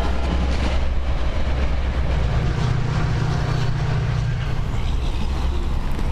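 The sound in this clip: A metro train passing through a suburban area of foreclosed homes, a loud continuous rumble and rattle of rail cars that holds steady throughout.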